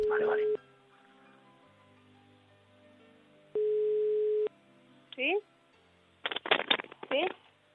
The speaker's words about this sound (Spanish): Estamos llamando